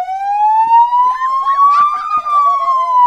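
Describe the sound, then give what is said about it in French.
A police car siren sounds one loud continuous wail that slowly climbs in pitch and then starts to fall, with a warbling sound over it. “Quand on met la sirène et qu'on est à l'intérieur, c'est toujours mieux d'être à l'intérieur et de fermer les fenêtres.”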